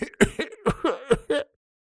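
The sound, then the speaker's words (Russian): A man clears his throat persistently in a quick, rhythmic series of about six harsh, gruff bursts, then falls silent. “И указала на дурня, который вдруг продолжил настойчиво откашливаться, стоило вновь обратить на него внимание.”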